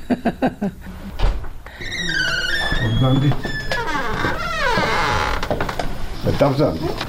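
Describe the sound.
A room door in a retirement home creaks, drawing out long wavering squeals that rise and fall in pitch amid other knocks and rustles.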